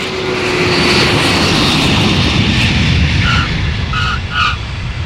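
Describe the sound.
Airplane engines roar steadily during flight before landing, a broad, loud, even drone with a few short, high tonal beeps sounding over it near the end.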